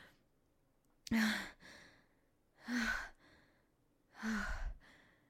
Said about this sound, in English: I'm so out of breath.